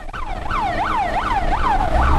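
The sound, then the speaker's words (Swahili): Wailing sirens of fire engines spraying water on burning market stalls at the Kamenge market in Bujumbura rise and fall in about four loud, regular sweeps over a low rumbling background. “Ni mngurumo wa gari za kuzima moto zilizokuwa zikipuliza maji kuzima vibanda vilivyokuwa bado vikiwaka moto katika soko hilo la Kamenge.”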